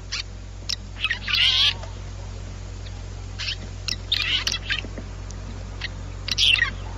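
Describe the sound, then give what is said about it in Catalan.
Red-rumped swallow calls: a few short, high-pitched chirping bursts spaced out over a low, steady background hum, fairly faint overall. “En aquest cas anem a escoltar aquesta oreneta cua rogenca.”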